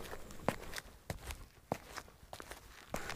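Footsteps of a person walking, faint and uneven, several soft steps falling at irregular intervals with no talking.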